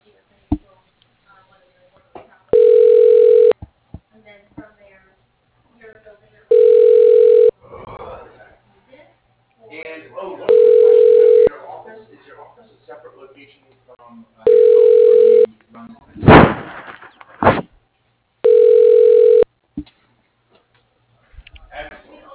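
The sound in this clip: Telephone ringback tone while a call is transferred to an extension: five long, steady ring bursts at one fixed pitch, evenly spaced, with a voice and clicks heard between the rings.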